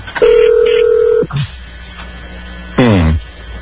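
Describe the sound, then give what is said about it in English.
A telephone rings to an empty office, heard through the phone line: one steady electronic ring tone of about a second, then a short blip and a brief buzzy burst over a faint hum. “Phone ringing to an empty office.”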